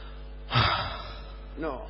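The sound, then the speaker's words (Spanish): Heavy breathing from a man during an X-ray: a sharp, gasping breath, then a second, fainter breathy sound about a second later. “No me respire así, señor.”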